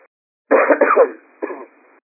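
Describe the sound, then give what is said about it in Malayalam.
Someone with a cold coughs: a harsh, rough burst followed after a short pause by a second, shorter cough, with a thin, narrow tone. “ക്ഷമിക്കണം എനിക്ക് ഇന്ന് ചെറിയൊരു ജലദോഷം ഒരു called ഉണ്ട് ചെറിയൊരു ചുമയുണ്ട്”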